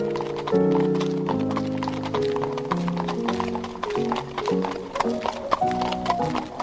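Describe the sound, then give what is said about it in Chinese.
Rhythmic clip-clop of horse hooves pulling a carriage along a road lined with hedges and trees, a steady run of sharp hoof strikes over sustained tonal sound. “马儿放慢了速度，好像爬坡一样。马车激烈地摇晃着”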